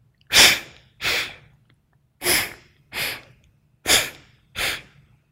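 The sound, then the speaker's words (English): Vigorous, rapid breathing exercise done through the nostrils, switching sides: six forceful, airy breaths, inhales and exhales, come in quick pairs with short pauses between, over a faint steady low hum. “For step three, both the inhale and exhale are vigorous, but a little faster than in step two.”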